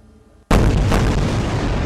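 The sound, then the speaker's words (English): Israeli air strikes explode over the Gaza Strip. After a brief quiet moment, a sudden, very loud blast breaks in, and a heavy, continuous roar with a deep rumble carries on until the end. “Tonight, the Israeli Air Force lighting up the sky, pounding the Gaza Strip.”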